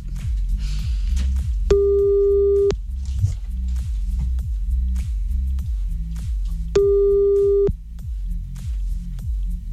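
A telephone ringing tone plays while a call is placed back to someone: two steady, mid-pitched tones of about a second each, roughly five seconds apart, over a continuous pulsing, rhythmic backing.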